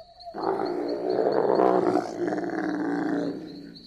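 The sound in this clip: A bear growling, one deep, rough, sustained roar that lasts about three seconds, loud and alone, rising abruptly and fading at the end.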